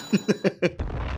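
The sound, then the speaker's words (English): A bomb explosion sound effect: four short, evenly spaced tonal bursts are followed by a sustained low, rumbling boom that carries on to the end. “Can we get some bombs to refresh the palette?”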